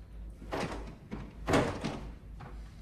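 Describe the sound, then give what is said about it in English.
A locked bedroom door is tried: a few dull thumps and rattles as the door catches against its lock, moderately loud, with no voices. “then goes to open the bedroom door.”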